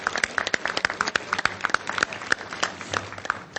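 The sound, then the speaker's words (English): Audience applause after a presentation about a new technology: dense, steady clapping from many hands, fairly loud throughout with irregular sharp peaks. “Let's give Pia a round of applause again.”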